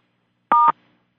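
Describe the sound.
A conference call system beep as all callers are muted: one short electronic tone made of two steady pitches sounding together, clean against silence.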